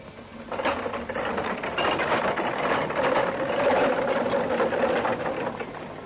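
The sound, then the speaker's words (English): Mechanical whirring and ratcheting as a rolling operating-theater machine lowers its patient tabletop and bolts it into place, a steady, dense grinding that runs continuously for several seconds with no voices. “The machine lowered its tabletop and bolted it into place.”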